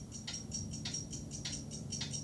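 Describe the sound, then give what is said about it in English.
Many clocks ticking together in a cluttered room in Back to the Future: a faint, steady run of light, crisp ticks, overlapping in an even rhythm throughout. “Various clocks in a cluttered room read 7:53.”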